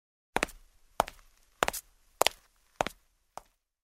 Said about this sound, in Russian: Стучит его трость по мостовой.